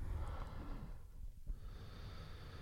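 A sharp nasal sniff as someone draws in the aroma of a drink held up close, a breathy, hissing inhale with soft noise around it and no talking.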